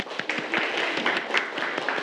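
Students in a class applauding, a brief, continuous flurry of many hand claps at moderate loudness.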